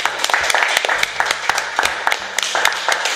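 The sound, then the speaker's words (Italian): A small group claps at the close of a dinner gathering, a dense, steady patter of hand claps that stays fairly loud throughout, with a few sharper individual claps standing out. “Facciamoci un applauso.”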